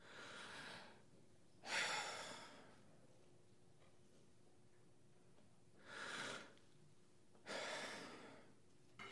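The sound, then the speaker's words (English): A voice imitating the heavy breathing of a man standing frozen and unable to move: four slow, airy breaths spaced irregularly apart, quiet and alone. “He couldn't move. He just would breathe real heavy like this.”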